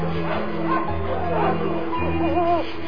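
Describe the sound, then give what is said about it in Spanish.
Dogs howl at night, with several wavering, whining cries rising and falling in pitch over a steady low background, loud and continuous throughout. “Sacudía el viento las ramas, aullaban los perros y chillaban las lechuzas.”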